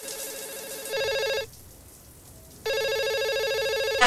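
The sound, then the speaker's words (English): A telephone rings in a changing room with a bright electronic warbling ring in two long bursts separated by a short gap, clear and alone. “The phone rings in the changing room.”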